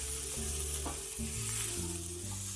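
Food sizzles in a pan on the stove as it is stirred briskly, a soft, steady crackle with faint scraping, with no talk.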